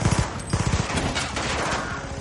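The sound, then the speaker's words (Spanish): Machine gun fire in an action film scene: loud, rapid bursts of shots in a few quick volleys at the start, then a continuous dense roar of gunfire and noise. “Fox abre fuego con una ametralladora.”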